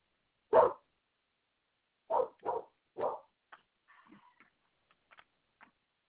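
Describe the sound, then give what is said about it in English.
A dog barks four times while its owner is on the phone: sharp, loud single barks with a pause after the first. A few faint yips and whines follow and trail off, with no talk. “I apologize for the dog. I don't know what's going on. You okay? I suppose he wants to know that I'm on the phone.”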